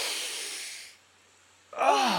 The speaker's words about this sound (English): Hey, let's take a smell of this fresh air. You wanna breathe it in with me? I mean, you gotta enjoy this. Yes. All right, on the count of three, let's take in a deep breath.